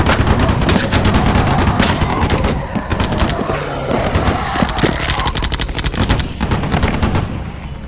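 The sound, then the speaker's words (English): Heavy automatic gunfire: dense, rapid, overlapping shots roar nonstop for about eight seconds, loud and sharp, like machine guns firing continuously. “You heard the boss. Open fire!”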